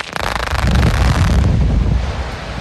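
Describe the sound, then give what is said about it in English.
Explosive rock blasting at a mining site in a community in Ogun State, Nigeria: a sharp, loud onset gives way to a heavy low rumble that carries on throughout, buffeted and roaring. “That's the deafening sound residents at Igare Land, a community in Ogun State, endure every time Zhongtai Mining Nigeria Limited blasts rocks.”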